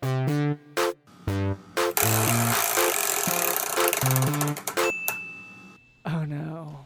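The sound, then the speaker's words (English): A prize wheel spun during a game show segment gives off a rapid run of bright clicking ticks over chiming, bell-like jingle tones, with short tonal stings before and after the spin. “would you spin the wheel for us? Oh yeah, brother! I love spinning the wheel.”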